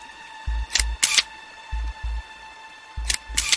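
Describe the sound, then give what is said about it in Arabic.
Camera shutter firing three times, each shot a quick double click with a soft low thump, spaced about a second apart over a faint steady hum. “استنى احاول اصور على الاقل.”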